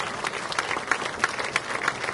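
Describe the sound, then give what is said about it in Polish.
An audience at an honorary citizenship ceremony applauds. The clapping is fairly faint and scattered, with a few sharper individual claps standing out from the crowd's softer patter. “Wielkie brawa, drodzy Państwo.”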